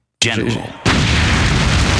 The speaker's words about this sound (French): Ah, la fameuse explosion avec la disto.